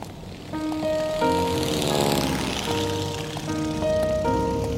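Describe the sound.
Propeller engines of a Douglas DC-3 airplane drone steadily and loudly, with a tonal hum and a broad whooshing wash that swells toward the middle and holds to the end.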